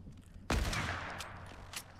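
Gunfire in the video game Fortnite: one sharp, loud shot rings out and tails off, followed by a couple of brief, fainter cracks.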